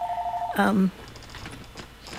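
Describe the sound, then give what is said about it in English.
Telephone ringing: a steady electronic ring tone holds for about half a second, then gives way to a brief, louder burst of harmonic tones before the line falls quiet. “Oh, there's the phone. Right. Somebody's calling in. Let's answer.”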